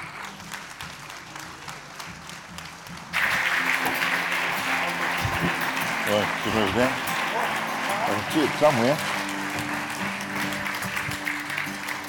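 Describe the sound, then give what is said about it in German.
Standing audience applause for a guest at a German gathering: after a few seconds of quieter sound, loud clapping from many hands suddenly erupts and continues steadily to the end, with voices calling out over it. “Steht mal auf, gebt ihm mal einen Applaus.”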